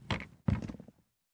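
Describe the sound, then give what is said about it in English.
Two dull thunks from an office door being locked, one short knock-like impact followed by a slightly longer, fuller thud, fairly quiet with no voices. “Why did I lock the door? A few reasons.”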